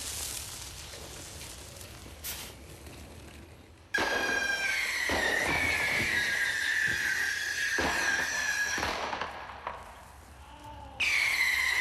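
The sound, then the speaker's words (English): Rocket skates ignite on a test run with a sudden loud roaring hiss and a high whistling tone that sags slightly. The roar lasts several seconds, dies down, then bursts out again near the end. “Hello, I'm Johnny Knoxville, and we're about to test my rocket skates. Go.”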